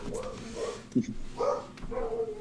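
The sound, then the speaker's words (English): Dogs barking in a few short, sharp bursts, fairly loud, with gaps of low background between them. “I got to tell my dogs to shut up.”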